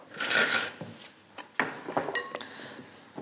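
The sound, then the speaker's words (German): Dried potato pieces tossed in a bowl with starch and oil: faint, uneven scraping and rubbing rustles, broken by a few light knocks against the bowl. “Jetzt einfach durchschwenken. Jetzt kriegt man gleich schon so fast so eine Art Teig durch die Stärke und das Öl.”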